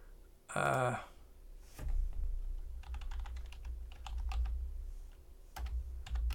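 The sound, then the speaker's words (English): Typing on a computer keyboard, a quick irregular run of many sharp key clicks that follows a short burst of voice at the start. “I typed equip zero, and that was bad.”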